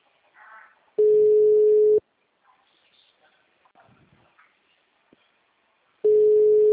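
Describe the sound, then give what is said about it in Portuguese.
Ringback tone of an outgoing phone call: two steady, mid-pitched one-second beeps separated by roughly four seconds of near silence, the second cut off at the end, with faint scattered noises in the gap. “Vou ligar agora de novo essa porra. Vamos ver.”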